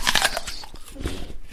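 Crisp crunch of teeth biting into an apple, followed by a few softer crunching bursts of chewing.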